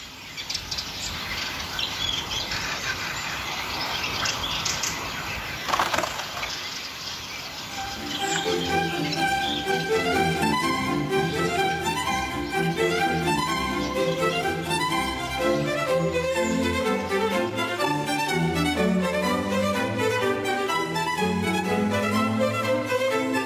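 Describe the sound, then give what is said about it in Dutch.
Dense chattering of a large mixed flock in trees, with hundreds of blue tits, tree sparrows and magpies gathered before migrating south: a continuous, busy mass of overlapping calls that grows fuller and louder after a noisier opening stretch. “Hier horen we ze in de bomen keuvelen, samen met honderden pimpelmezen, ringmussen en eksters, net voordat ze de reis naar het zuiden aanvaarden.”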